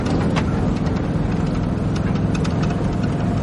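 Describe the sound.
A large truck engine runs steadily while driving, a continuous low rumbling drone with even loudness and no breaks and no voices.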